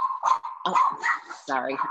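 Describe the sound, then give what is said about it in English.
A dog yips and barks during a live talk show. The short, high, whiny bursts come in several quick spurts with brief gaps between them, and each has a bright, strained tone close to a whimper. “I can't control the dog. The Roundtable Talk Show is live. Whatever happens is live on the show. Love it. I have questions for your dog now.”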